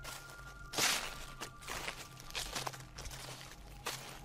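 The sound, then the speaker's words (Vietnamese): Soft footsteps tread on dry leaves outside, a series of light crunching, rustling steps at an uneven pace, fairly faint and with no voices. “ở bên ngoài lại có tiếng bước chân nhẹ nhẹ dẫm lên đám lá khô.”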